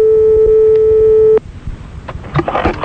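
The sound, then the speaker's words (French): A telephone ringback tone on an outgoing call placed from a studio: one loud, steady, even-pitched tone that holds for over a second, then stops abruptly, leaving faint scattered noises. “Bon, on appelle un monsieur madame Delon dans le studio.”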